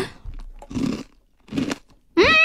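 Two loud, brittle crunches come from biting into a bite-sized ball of crushed Baby Star ramen snack noodles, separated by a short quiet gap, followed by a brief voiced murmur at the end.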